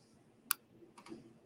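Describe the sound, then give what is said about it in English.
A computer mouse clicks as a project is selected in an online lesson tool: one sharp, faint click, then a softer click, with no talk. “So I click the project that I want.”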